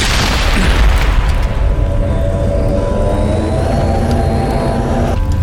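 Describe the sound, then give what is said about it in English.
A grenade explodes in a video game with a loud, sharp boom at the start that trails off into a long, rumbling roar and a low, steady drone. “Oh, he jumped away. Where'd he go? Oh, he throws a grenade.”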